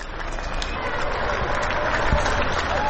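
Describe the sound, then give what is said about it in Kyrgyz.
Applause from people clapping to support doctors during the COVID-19 epidemic in Europe: a dense, continuous patter of many hands, fairly faint and even throughout. “бирине сала бири кол чаап, дарыгерлерге колдоосун көрсөтүп жатышат.”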